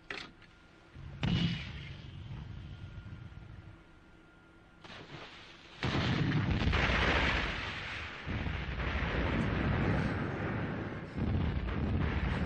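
An explosion booms during a wartime naval alert after a U-boat sighting. Several heavy bursts break through a windy rumble, and the last and loudest swells into a long, roaring wash of noise.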